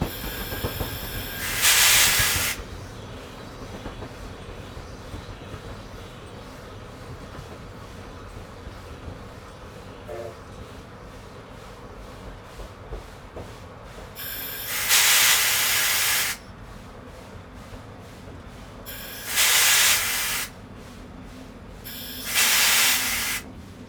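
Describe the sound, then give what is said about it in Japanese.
A train pulls into a station and stops, its brakes letting out four loud, sharp bursts of hissing air, spaced apart, over a low, steady rumble between them. “マシコ停車、停止位置よし、定時”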